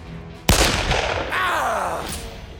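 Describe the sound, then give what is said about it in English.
A single sharp gunshot from a .22 rifle in a kitchen cracks out abruptly and is followed by a long, fading tail of noise. “I level the 22 and squeeze the trigger.”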